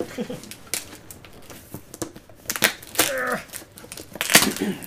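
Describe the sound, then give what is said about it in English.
Packing tape on a box being cut with a toy keyblade, an uneven run of scratchy rips and cracking bursts, several louder tears toward the end. “This tape is pretty tough. Really excited because this thing's been sitting in my house for like a month now.”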